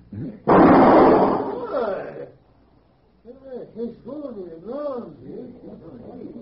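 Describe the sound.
A single loud gunshot bursts out and rings off, then a man's voice speaks alone.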